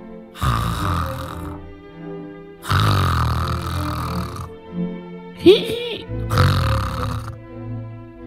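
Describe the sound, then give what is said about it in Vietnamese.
An old man snores loudly in three long, rough, grating snores with gaps between them. A brief squeaky, whistling sound comes between the second and third snore. “Lão Hậu, lão quay mặt sang bên kia đi. Lão ngáy vừa to mồm vừa thối quá.”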